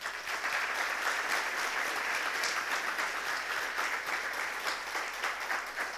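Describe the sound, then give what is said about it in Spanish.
A church audience applauds during a service, a dense, steady clapping that stays even and fairly loud for the whole stretch, with no voices standing out above it. “Let us just clap our hands. Vamos a darle un aplauso al Señor.”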